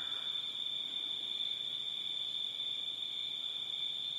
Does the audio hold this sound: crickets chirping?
yes